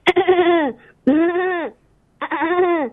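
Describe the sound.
A person imitating a goat in an animal mimicry act, giving three loud, wavering, nasal bleats separated by short pauses.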